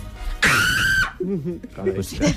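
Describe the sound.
A woman's loud, shrill scream lasting about half a second, followed by people talking.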